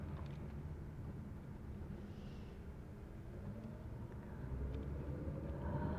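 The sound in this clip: Car driving back from Kaiser Hospital: a low, steady rumble of engine and road noise that grows slightly louder toward the end, with no talk.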